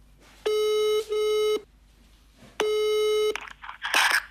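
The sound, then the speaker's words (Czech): A telephone ringback tone sounds on a call: steady, buzzy electronic bursts, two close together, a pause, then a third longer one, followed by faint brief noises as the line connects. “Tak jí hned volám.”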